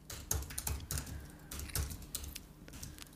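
Typing an email on a computer keyboard produces many quick, faint key clicks in an irregular rhythm, with small bursts of taps and short pauses between them.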